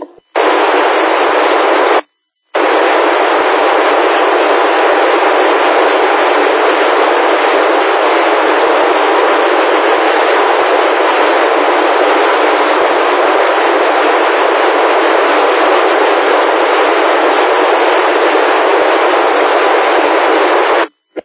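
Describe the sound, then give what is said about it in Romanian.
A radio repeater keyed open with a carrier but no modulation: a loud, steady hiss running about twenty seconds, broken once by a brief drop near the start, with no voice carried. “Da, merge repetorul foarte bine, dar cine știe unde transmiteți, nu a trecut modulația, a deschis repetorul, dar fără modulație.”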